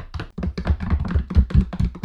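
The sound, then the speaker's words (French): Knocking at a door: a rapid run of many dull taps with a low, thumping body, fairly loud and continuous, with no talking. “Quand il entend frapper à la porte,”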